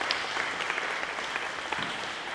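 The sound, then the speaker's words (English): Audience applause following a Bible story retelling: a steady, dense patter of many hands clapping, fairly even in loudness throughout, with no voices over it. “I think we can give them all a clap.”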